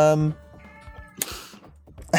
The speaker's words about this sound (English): Kitty.